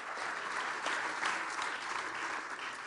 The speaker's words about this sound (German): Lass uns Ihnen einmal einen kräftigen Applaus geben.